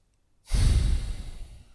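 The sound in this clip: A deep breath during a breathing exercise comes as a single loud, breathy rush that begins suddenly after near silence, then slowly fades away with no talking.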